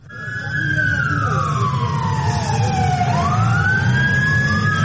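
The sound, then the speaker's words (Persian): An ambulance siren wails in an earthquake-stricken area carrying the dead or injured. Its loud, steady tone glides slowly downward for about three seconds, then sweeps back up and holds high over a constant low rumble. “گاه صدای امبولانس بلند می شود که جسد یا زخمی را انتقال می دهد”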